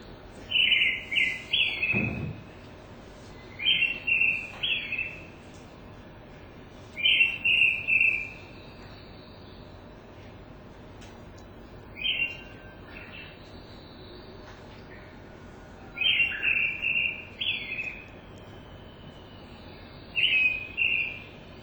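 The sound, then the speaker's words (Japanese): Song of a red-bellied thrush, a thrush living in Japan year-round: short, bright, chirping phrases repeated every few seconds with quiet pauses between, over a faint low background hum. “さえずりをしています。お腹が赤い、つぐみの仲間で一年中、日本に住んでいます。”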